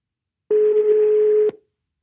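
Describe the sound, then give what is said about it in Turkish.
Telephone dialing tone on an outgoing call: a single steady mid-pitched tone lasting about one second, clear and alone, cutting off abruptly. “Bugün Kerem'i arıyorum.”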